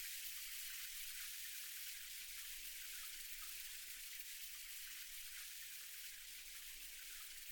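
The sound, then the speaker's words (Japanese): Shower water rinses in a steady, faint hiss of spray that runs on without change throughout, with no talk. “シャワーで流していくね。”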